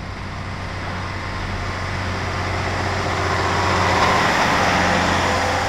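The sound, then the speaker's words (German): A truck hauling a prefabricated house, finished wall panels with windows and doors, drives past: a steady engine and road rumble that swells slightly louder as it goes by, with no voices. “da fährt gerade ein Haus zum Zusammenpuzzeln an uns vorbei. Das sind ja schon fertige Wände mit Fenstern und Türen drin.”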